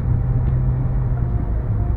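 A car driving on a freeway during a commute home in heavy, stop-and-go traffic gives a steady low rumble and road hum, even and unbroken, with no voices.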